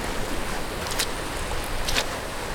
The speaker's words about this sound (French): Je marche sur la plage de Pénétin, dans le Morbihan, en Bretagne.